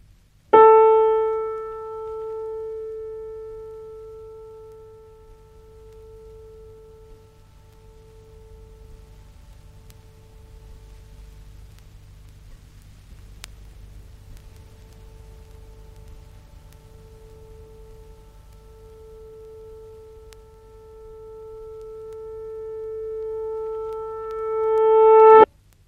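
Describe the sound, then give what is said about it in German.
A single piano tone played backwards on tape: a clear, steady mid-pitched harmonic tone held for about 25 seconds, swelling louder at both the start and the end and stopping abruptly. “Wie sehr zum Beispiel ein Klavierton durch das einfache Mittel des Rücklaufs verändert wird, wollen wir jetzt hören.”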